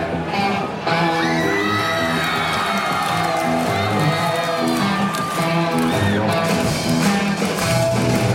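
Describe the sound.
An enthusiastic audience cheers at a concert at the Palais d'Hiver in Lyon. Loud, continuous crowd roar carries whoops, yells and shouts throughout.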